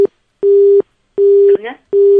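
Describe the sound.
A busy signal sounds on a faulty phone line: a steady, low, pure beep that switches on and off in an even cadence, with a short garbled, voice-like blip after one of the tones.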